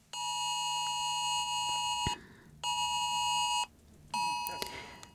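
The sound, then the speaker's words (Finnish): An emergency alert test signal for the Stockholm and Gotland regions: three loud, steady electronic tones with a buzzy, harmonic edge. The first lasts about two seconds and the next two are shorter, each separated by a brief gap. No voices are heard. “Hätävaroitus kuulosti tältä.”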